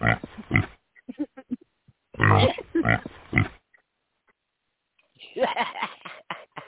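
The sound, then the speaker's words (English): A pig oinking sound effect, heard as narrow, grunting oinks in three bursts separated by gaps of near silence, the last burst after a longer pause. “All right, I got my oinks.”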